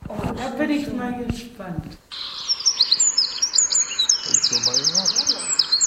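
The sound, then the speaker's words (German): Eurasian wren song: loud, high-pitched rapid trills and sharp twittering notes pour out continuously after a short stretch of talk, with some lower warbled phrases mixed in toward the end. “Das ist der Zaunkönig. Genau, so singt der Zaunkönig.”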